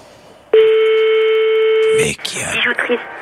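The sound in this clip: A telephone tone on a call to a jewellery shop: silence, then one steady, loud, even tone lasting about one and a half seconds that cuts off abruptly, followed by brief muffled clattering sounds.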